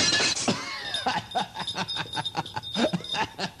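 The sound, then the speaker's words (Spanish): A glass bottle is thrown and shatters in a sharp, bright crash at the start, followed by bursts of rhythmic laughter. “Y ahora tira la botella.”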